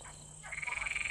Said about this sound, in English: the green toad, which she thought had suddenly grown larger, croaked more loudly